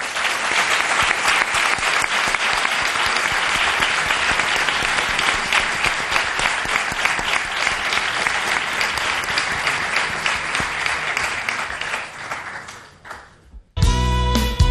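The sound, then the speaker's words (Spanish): Audience applause for departing studio guests, a dense, steady wash of many hands clapping at an even loudness for about twelve seconds before thinning out and stopping. “Os despiden nuestros oyentes con este aplauso.”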